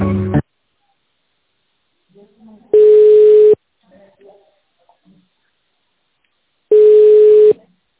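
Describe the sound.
Telephone line tones while a call is transferred to the accounting department: two long, steady, single-pitch beeps several seconds apart. A brief snatch of voice comes at the start, and faint low murmurs fall between the tones.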